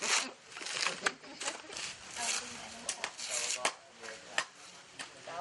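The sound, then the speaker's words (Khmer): Dry, fibrous ripping as coconut husk is peeled away by hand, with many irregular tearing strokes, some sharper snaps, and short lulls between pulls. “គេបកសំបកដូងដោយដៃហើយនៅសល់តែលលាប៉ុណ្ណោះ”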